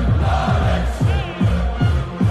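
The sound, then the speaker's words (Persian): A crowd of about 30,000 Dutch fans gathered in a Hamburg street makes a dense, continuous roar over a steady, regular thumping bass beat from music. “شاید موفق‌ترین این تماشاگرها هلندی‌ها بودند که یک تجمع عظیم حدود 30,000 نفره رو در هامبورگ شکل دادند و ویدیویی از این تجمع به سرعت در شبکه‌های اجتماعی دست به دست شد”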